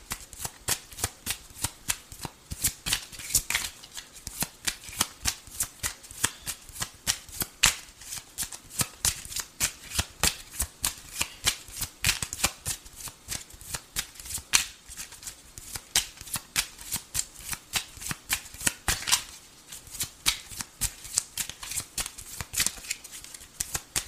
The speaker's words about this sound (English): May I have two more cards, please?